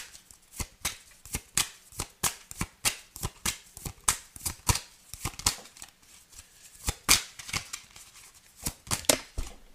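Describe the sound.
Tarot cards shuffled by hand: many crisp, papery riffles and flicks in a quick, uneven rhythm, moderately loud, with no talking.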